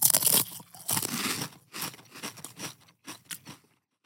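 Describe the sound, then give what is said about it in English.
Crunching of Pringles potato chips: many loud, dry, crackly bites and crunches in quick, irregular succession, with no talking. “So we were recording, popping the can, percussion, playing the can, crunching the chips. Here we go. We're about to do one now.”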